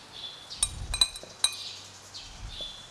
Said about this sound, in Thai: เราก็เริ่มจากนำไข่แดงนะคะลงมาใส่ในภาชนะก่อน